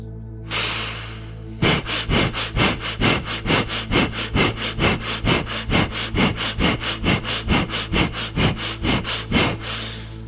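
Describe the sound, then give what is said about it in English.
Rapid, forceful fire breaths: one long breath, then a steady run of many sharp, loud nasal exhalations in an even, quick rhythm, with no talking. “Now take 18 breaths, fire breaths, to jump back into this universe.”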